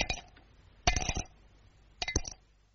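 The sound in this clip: Cape Plum stones clinking: three bright, hard clinks, each a short cluster of quick taps, separated by brief quiet gaps.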